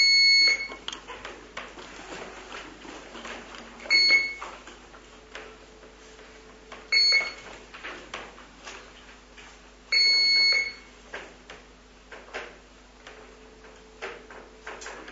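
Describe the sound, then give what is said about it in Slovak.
High-pitched electronic alert beeps sound in short bursts during a municipal council meeting session, about four bursts repeating every few seconds over faint ticking and a low steady hum. “Mohol by som poprosiť trošku znižiť intenzitu toho zvuku, pýpania, toho upozorňovania, keď sa to dá, prosím.”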